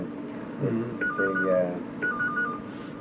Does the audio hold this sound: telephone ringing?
yes